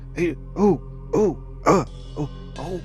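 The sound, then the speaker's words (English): Loud throat clearing by a person: a series of voiced, rasping bursts in a steady rhythm, each short and gravelly, with the last ones softer. No other speech is heard. “Clear my throat loudly as we maybe wait a tense second.”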